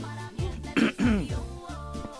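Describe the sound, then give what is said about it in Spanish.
A person gives a short, rough cough with a throat-clearing quality in the middle of a spoken commentary. The brief harsh bursts stand out from continuous low background sound. “Ah, caray. ¿Por qué esa tos?”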